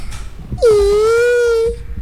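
A single drawn-out crying wail rises briefly, then holds a steady pitch for about a second before fading out, loud over faint background noise.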